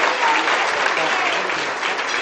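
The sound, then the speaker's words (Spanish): Loud, dense audience applause at a feminist event welcoming a speaker, a steady, unbroken roar of many clapping hands from start to finish. “Un aplauso para una feminista.”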